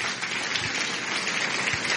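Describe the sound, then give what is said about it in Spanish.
Applause honoring Jesus Christ during a Spanish-language religious talk: a dense, steady patter of many hands clapping that holds an even loudness for about two seconds, with no voices over it. “Un aplauso a Jesucristo nuestro Señor.”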